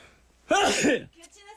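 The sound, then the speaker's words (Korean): A single abrupt sneeze from a person, a loud half-second burst standing out from quiet surroundings, with faint voice sounds just after it. “아유 재채기가 이 타이밍에 나오네.”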